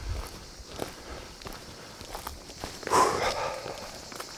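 Footsteps of someone walking uphill on a botanical trail: many soft, crunching steps at an even pace, faint overall, with one slightly louder scuffing step partway through.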